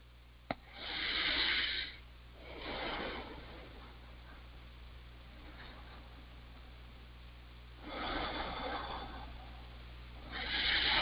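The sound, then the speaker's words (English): Slow, deep breaths taken on request during a guided healing session: a few soft, drawn-out airy swells separated by quiet pauses. “If so, say yes. Yes. And take three nice deep breaths.”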